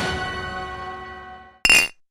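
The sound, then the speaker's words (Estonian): Clinking of an empty glass jar: a bright ringing tone that slowly fades away, then one short, sharp glassy clink that cuts off quickly. “Supp valmis, aga kuhu see tühi klaaspurk käib?”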